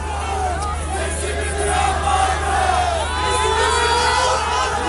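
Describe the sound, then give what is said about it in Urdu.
Angry crowd shouting at a protest in Antakya during an earthquake memorial, demanding the mayor's resignation: many raised voices overlap in a loud, continuous roar that swells in the second half. “لوگوں نے ناکافی اقدامات پر حکومت پر تنقید کی اور انطاکیہ کے mayor کے استعفے کا مطالبہ کرتے ہوئے نعرے لگائے۔”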